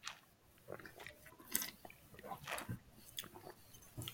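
Sipping and slurping of a young 2020 dry single-vineyard Riesling at a wine tasting. The mouth sounds are faint, soft and irregular, with several short bursts and no talk over them.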